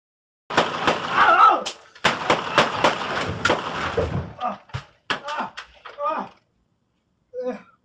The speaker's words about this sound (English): This very first one, it's the newest one. Mesa police officer shoot a guy who points a gun at them.